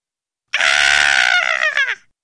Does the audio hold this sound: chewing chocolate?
no